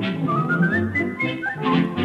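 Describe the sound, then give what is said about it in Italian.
Human whistling a lilting tune in an Italian song, the clear melody rising and falling over steady instrumental accompaniment. “Adoro il fischio, voglio fischiettare, state ad ascoltare.”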